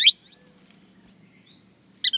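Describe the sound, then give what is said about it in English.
Calls of a ringed kingfisher and a thick-billed kingbird in Central America: a short, loud, harsh burst at the start and another brief burst of a few clipped notes near the end. A faint low hum fills the quiet stretch between them. “In Central America, an enormous ringed kingfisher. While nearby, a thick-billed kingbird calls.”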